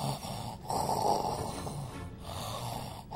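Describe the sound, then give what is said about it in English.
A person imitating snoring with loud, rough, raspy breathing: a couple of long, noisy breath cycles, each separated by a short pause. “Not like a loud snore. It's like a loud breathing, kind of like a”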